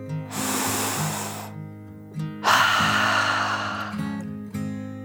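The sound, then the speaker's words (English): A deep breath drawn in and then let out, heard as two long, breathy rushes of air, each over a second long, above a faint, low, steady hum. “He was starting to feel a little better, so he took one more deep dragon breath, in and out.”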